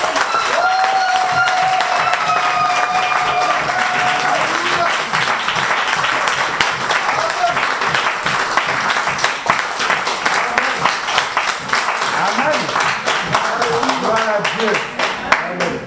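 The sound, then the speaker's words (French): A church audience applauds loudly while acclaiming God during worship, a thick, steady roar of clapping that lasts throughout, with voices calling out over it. “Tu vas acclamer ton Dieu très très fort. C'est ton Dieu. C'est pas le Dieu de qui que ce soit, c'est ton Dieu. Il est à toi. Acclame-le très fort.”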